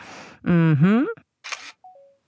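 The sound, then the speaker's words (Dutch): A phone camera shutter fires as a photo is taken, one short click burst after a brief voiced sound, followed by a short two-step falling beep. “Hier moet ik echt een foto van maken.”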